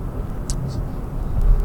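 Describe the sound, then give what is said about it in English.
Road traffic noise from a car in heavy traffic: a steady, low rumble with a couple of faint, brief hisses, growing slightly louder toward the end. “Sorry, I'm in a lot of traffic right here.”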